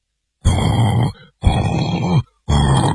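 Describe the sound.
A voice imitating snoring: three loud, rasping throaty snores in a row, each about half a second to a second long and separated by short silences, with a low grunting tone and no other sound.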